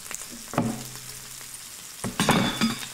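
Sausage chili frying in a crowded electric skillet gives a steady crackling sizzle, broken by a few louder scraping stirs.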